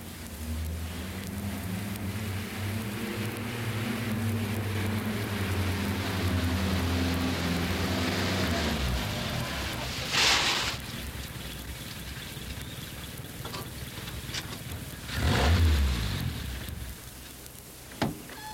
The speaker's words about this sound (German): Das ist ein guter Vorschlag. Ich fahre mit dem Taxi.